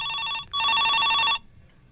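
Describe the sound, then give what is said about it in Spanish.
A telephone rings with an incoming call: two bright, steady electronic bursts, a short one and then a longer one, before it falls silent. “Estoy recibiendo una llamada en este preciso momento.”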